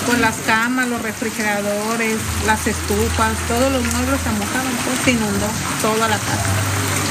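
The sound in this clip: Water rushes through the flooded streets of Manzanillo during Hurricane Simon, a steady rain-like hiss beneath a talking voice.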